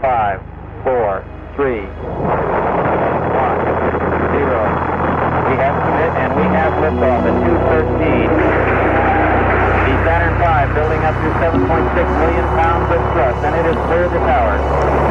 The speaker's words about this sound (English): We have submit and we have liftoff. The new 13. The Saturn V building up to 7.6 million pounds of thrust, and it is clear the tower.